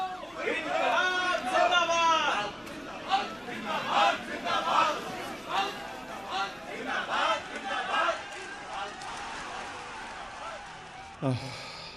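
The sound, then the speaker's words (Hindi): Crowd chanting slogans in a protest procession, many voices shouting together in repeated bursts that rise and fade, with a sharp knock near the end. “मैं जुलूस में जा रहा हूँ। इनकलाब जिंदाबाद।”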